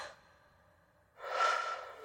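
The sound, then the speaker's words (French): A single, steady, breathy exhale, as if blowing out air, lasts about a second after a near-silent pause and is heard alone. “Je souffle sur la lune.”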